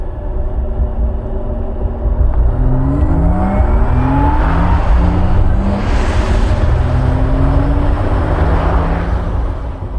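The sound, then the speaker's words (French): Electric drive sound of a new Porsche Taycan GTS: a continuous whirring hum with layered tonal whines that sweep upward in pitch in repeated waves over steady road and motor noise. “Les sons que vous venez d'entendre proviennent de la nouvelle Porsche Taycan GTS et cette nouvelle sonorité plus expressive, qui contribue grandement à l'agrément de conduite, est exclusive à cette plus récente variante de la Taycan”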